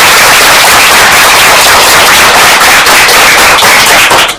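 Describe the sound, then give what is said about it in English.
Audience applause at a school quiz competition after a correct answer: dense, loud, continuous clapping that holds steady for about four seconds before tapering off at the end. “a round of applause for that.”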